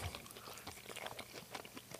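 Chewing on a salami and pepperoni pizza with a cheesy stuffed crust makes faint, crackly crunching and wet mouth sounds. Many small, irregular bites and smacks follow one another with no talking.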